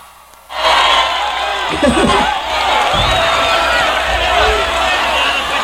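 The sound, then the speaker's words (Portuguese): Paysandu football supporters chant at a live show. After a brief quieter opening, a loud crowd roar swells and holds steady, with a few heavier low thumps inside the massed voices. “O grito da torcida do Paysandu, pô! A torcida do Paysandu joga a mãozinha em cima e bate na palma da mão,”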